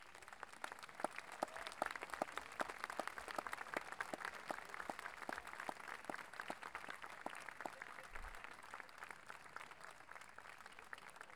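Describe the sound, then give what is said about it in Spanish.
Audience applause at a music festival ceremony, a faint, steady wash of many hands clapping with dense, even rhythm throughout, with no voices standing out. “a quienes damos un gran aplauso,”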